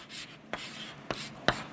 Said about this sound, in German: Ich probiere, das ein bisschen zu zeichnen. Auf der einen Seite zeichne ich da oben